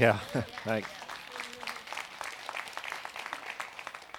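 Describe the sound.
Scattered clapping from a small audience of about nine people at a morning gathering. A voice speaks briefly at the start, then light, uneven claps continue faintly for a few seconds.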